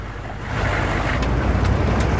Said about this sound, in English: Some of the vehicles break off from the convoy.